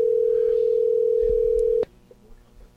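A steady telephone line tone from a call that goes unanswered sounds as one long unbroken beep for almost two seconds. It then cuts off abruptly, leaving faint low rumbling.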